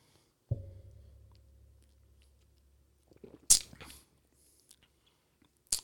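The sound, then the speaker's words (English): Eating ice cream: a few loud, close mouth bursts of chewing and smacking, separated by quiet stretches, with no talk. “You taste the ice cream. Like, got chill bad. It tastes so good.”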